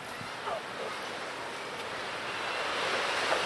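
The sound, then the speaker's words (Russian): Ocean waves rolling onto a foggy Pacific coast make a faint, steady, hissing wash that slowly grows a little louder across the few seconds. “Вы слышите звук? Это волны накатывают.”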